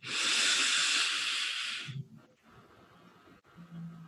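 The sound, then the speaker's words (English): A deep breath during a guided relaxation exercise: a loud, airy hiss lasting about two seconds, then a softer, breathy stretch with no talking. “And release. And one more deep, deep breath in.”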